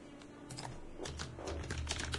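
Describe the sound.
Light tapping on a computer keyboard as someone types a short note. Many quick, irregular clicks sound faint and steady over a low background hum, with no voices.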